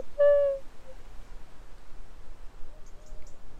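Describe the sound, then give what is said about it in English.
A collared dove calling from far away in a bush: one clear, hollow coo near the start, then a much fainter tonal note later, with a few high chirps. “It's to our right somewhere. It's quite far, it must be quite far away in that bush. But you definitely recognise that sound, right? Yeah, yeah, yeah. So that's a collared dove.”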